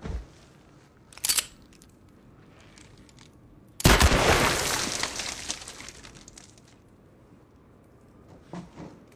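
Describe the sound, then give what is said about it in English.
Gunshots from a scene in a western film: a brief sharp crack, then a much louder blast with a long, slowly fading tail, followed by a few faint scattered sounds. “Measly bullets, and there goes Senor Bob.”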